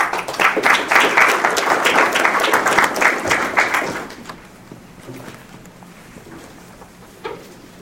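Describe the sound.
An audience applauds to welcome a speaker at a talk on E15 fuel and racing. Loud, steady clapping lasts about four seconds, then drops to a quieter, thinning tail.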